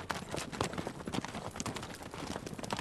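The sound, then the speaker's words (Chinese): Horse hooves clip-clopping as they pull a luxurious carriage, a dense run of quick, overlapping hoof strikes at a steady pace from start to finish. “第二天一大早，董卓坐着豪华马车来皇宫上朝了。”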